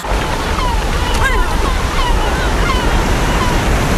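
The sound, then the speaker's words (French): Sea waves at the seaside make a loud, steady roar of surf and rushing water, with a broad hiss and faint wind throughout. “Nous avons réussi à vous emmener au bord de la mer en quelques secondes.”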